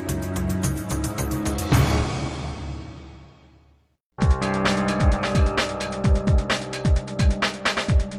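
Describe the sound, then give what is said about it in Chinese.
A car that had been boxed in at the roadside accelerates hard with its tires squealing. A loud engine roar and screech fade into a brief silence, then a second burst of pulsing engine revving and squealing follows. “此时，被拦车辆加速冲了出来。并撞倒了一个对方的人。”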